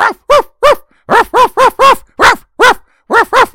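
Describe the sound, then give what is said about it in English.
A voice imitates a dog barking at something or at another dog from a car, with many short, harsh woofs in quick, uneven bursts. The barks are loud, with no other sound. “Maybe an occasional bark at something or another dog.”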